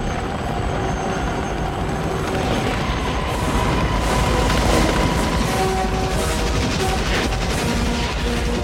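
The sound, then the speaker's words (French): Helicopters drone steadily through a war film battle scene of an attack on a Vietnamese village, with bursts of gunfire and booms from bombs and napalm explosions cutting through the dense, loud noise. “Ces 15 hélicoptères qui fendent le ciel, les explosions napalm, les bombes qui éclatent et les rafales des soldats américains, toute la machinerie de la guerre moderne en une séquence.”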